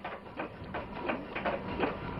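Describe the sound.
An improvised pump sucks air instead of water, making a regular series of breathy, rasping mechanical pulses at an even rhythm, fairly faint and with no talk over it.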